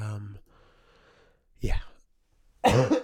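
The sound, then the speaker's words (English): A person with a lingering cough coughs, a short rough burst followed by a louder, longer throaty one after a brief voiced breath, in an otherwise quiet stretch. “I still have a little bit of a cough, I'm sorry.”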